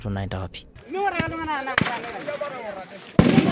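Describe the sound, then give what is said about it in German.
Gunshots ring out as police fire on Maasai people: two sharp, loud bangs cut through a stretch of people's raised voices. “Ein von der Nachrichtenagentur AP überprüftes Video im Internet zeigt, wie Polizisten auf die Maasai schießen.”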